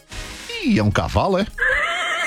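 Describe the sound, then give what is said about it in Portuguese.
A horse gives a loud, shrill whinny whose pitch slides down in quavering waves, and a human voice can also be heard. “Eita porra, essa aqui é? Eita, é um cavalo, é?”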